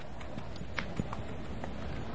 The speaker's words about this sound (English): I'm going to go see my friend the horse.